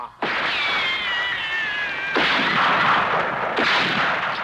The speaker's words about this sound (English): I count up to a one, then fire. 1 1/4, 1 1/2, 3 1/4, fire!